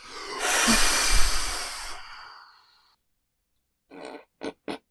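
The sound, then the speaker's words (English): Six birthday cake candles are blown out with one long, hissing puff of breath that lasts about two seconds and fades to silence. Three short, sharp puffs follow. “Oh, with six candles in. So 1, 2, 3, and then blow them out.”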